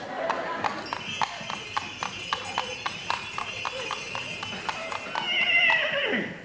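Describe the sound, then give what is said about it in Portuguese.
A mule's hooves clip-clop at a steady, even pace of sharp repeated taps that continue throughout, with a brighter tonal sound rising near the end. “Vem a cavalo da sua mula favorita”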